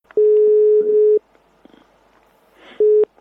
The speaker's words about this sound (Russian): Тут никак не избежать звонка нашему замечательному астроному Владимиру Георгиевичу Сурдину.